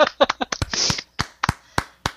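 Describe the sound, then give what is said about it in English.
Scattered hand clapping answering a call for a round of applause: a few sharp, uneven claps spaced apart, following a brief stretch of voice at the start. “That deserves an applause. Round of applause.”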